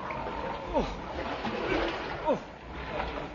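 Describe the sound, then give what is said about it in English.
Water splashes as rubber dinghies are paddled ashore off Crete at midnight, two sharp splashes standing out over a continuous wash of sloshing water. “At midnight on January the 2nd, the submarine surfaced off Crete. In rubber dinghies, we made for the dark outline of the shore.”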